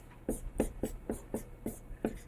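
Someone writes an equation on a board: a binomial expansion being worked through. About seven short, scratchy strokes come in a steady rhythm, faint and alone, with no talk.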